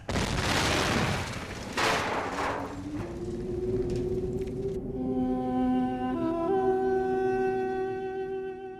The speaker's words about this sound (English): Red Martians were falling from the side of the huge ship, and then it exploded again.